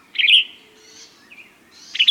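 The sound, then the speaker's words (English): Bright high chirps of birds in the tops of flowering trees in Mexico, where yellow-rumped warblers and western tanagers winter. Short bursts at the start and end, with fainter calls in between. “The tops of flowering trees are busy with yellow-rumped warblers and western tanagers, northern nesters that winter in Mexico.”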